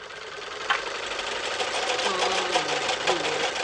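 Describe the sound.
A sewing machine runs while winding a bobbin with thread, a loud, steady, buzzing whir with a few faint ticks and rattles throughout.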